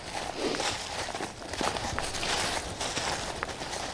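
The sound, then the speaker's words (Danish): Footsteps walking off the paths through the forest floor under trees on the island of Æbelø. Soft, crunching, rustling steps come at an uneven pace, fairly quiet. “Vi gør det, man ikke må, men vi lister altså faktisk rundt herinde i, øh, i skovbunden under træerne.”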